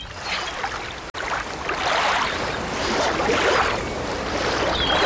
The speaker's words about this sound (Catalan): On estem? A la platja.